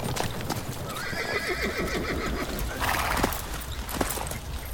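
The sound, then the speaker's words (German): Horses neighing and whinnying as they are halted to rest in a clearing, with hooves clopping on the ground throughout and a shaky, falling whinny rising above a steady, busy background. “Setzt ab und lasst die Pferde ausruhen.”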